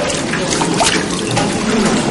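Water runs steadily from a tap at a public washbasin, a loud, continuous hiss and splash that stays even throughout, with no voices over it.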